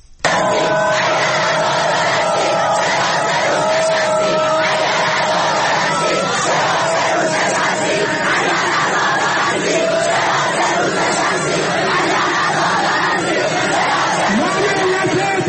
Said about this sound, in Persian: دانشجوها شعار میدادن. بشنویم صدای دانشجویان دانشگاه بهشتی رو.